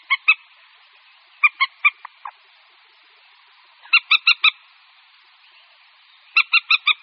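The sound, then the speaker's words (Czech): Common moorhens give contact and alarm calls from dense shoreline vegetation: sharp, honking notes in short clusters of two to four, separated by quiet pauses. The calls are clear, with no other sound around them. “V tu dobu se skupinky slípek v hustých příbřežních porostech dorozumívají kontaktními a někdy i varovnými hlasy.”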